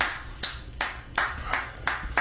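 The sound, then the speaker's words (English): Hands clap six sharp, evenly spaced times at a steady moderate pace. The claps are fairly faint and sound alone, with no voices. “Here's him clapping for real.”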